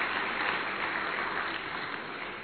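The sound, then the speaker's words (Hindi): Audience applause at a stage program honouring an esteemed guest: a continuous, dense wash of many hands clapping at a steady level throughout, with no distinct individual claps standing out. “पहले हम जोरदार तालियां हमारी दीदी जी के लिए।”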